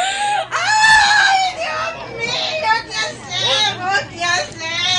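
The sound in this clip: Loud, high-pitched wailing and sobbing from a hired woman mourner grieving a grandfather, with quavering, sliding cries that carry on almost without pause.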